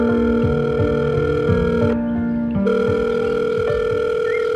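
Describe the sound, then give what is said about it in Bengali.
Telephone tones on a call to an office: continuous layered, droning tones that dip and shift briefly partway through, steady and fairly loud. “Parimal phone করল অফিসে।”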